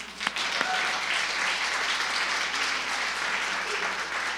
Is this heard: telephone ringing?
no